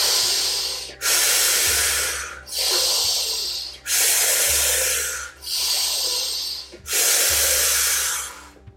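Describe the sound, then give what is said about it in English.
Active breathwork, in through the nose and out through the mouth: about six long, loud, airy breaths in a steady rhythm with short pauses between, over a low sustained drone. “I invite you to begin with that halo active breath. In through the nose and out through the mouth, or in through the mouth and out through the mouth.”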